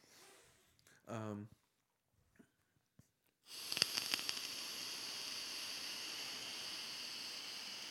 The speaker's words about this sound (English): That was a powerful inhale. I felt a lot of power in that. Lungs of steel. The vape is strong with this one.